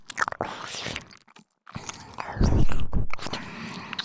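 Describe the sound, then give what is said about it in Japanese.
Close-up licking right at the ear: wet mouth and tongue noises with smacking bursts, a brief silent pause midway, then denser, louder slurping. “いいですよ、私の舌思いっきり感じてください。ペロペロする音、このくらい直接聞いてください。”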